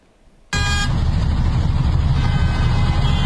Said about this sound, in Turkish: Ankara Kuzey Çevre Yolu'nda bir sürücü aracının plakasını kapatarak drift attı.